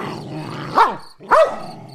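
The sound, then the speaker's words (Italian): A dog barks and growls: two sharp, rising-and-falling barks stand out over a continuous low, rumbling growl. “Il cane non mi riconosce. Si lancia contro di me abbaiando, mostrando i denti e rizzando una cresta di peli grigi sul collo.”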